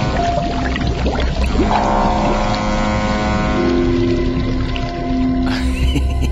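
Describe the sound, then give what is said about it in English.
A submarine diving underwater: a constant low mechanical drone layered with steady humming tones and a rushing, water-like hiss, holding an even loudness throughout. “Surely you want to take your new submarine underwater for a quick spin, don't you? Dive.”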